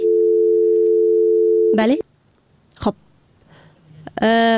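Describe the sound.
Steady telephone dial tone after a caller's line is cut off, a flat, even hum lasting about two seconds before stopping abruptly, followed by a few short, sharp tonal bursts.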